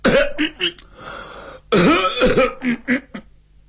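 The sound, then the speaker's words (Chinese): A man clears his throat and coughs in short, rough voiced bursts, two clusters separated by a brief pause, loud and alone without talk. “三步两步退到外屋，往椅子上一坐，咳嗽两声。”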